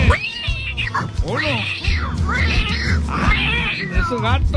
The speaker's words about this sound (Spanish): ¡Esos gatos! ¡Sepárenlos!